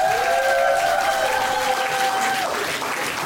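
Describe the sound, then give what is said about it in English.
Applause and cheering from a comedy club audience at Ellie's Comedy Club as the next comedian is welcomed to the stage: a steady wash of clapping with a thin sustained tone over it that fades after about two and a half seconds. “Ladies and gentlemen, please give it up for your next comedian here at Ellie's Comedy Club. You're going to love this guy. Welcome to the stage”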